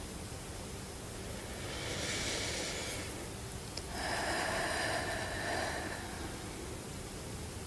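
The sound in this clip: Slow breathing, two soft, drawn-out breaths that swell and fade, faint over a steady background hiss, with no talking.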